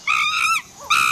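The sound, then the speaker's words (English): Monkey calls in a jungle: a few high, whining calls with a clear harmonic ring. A long call comes first, then a brief soft one after a short gap, then another strong call starts. “Believe it or not, for some, this is the sound of a dream. A dream about one day hearing this specific monkey in this specific jungle, not through the telly, but for real.”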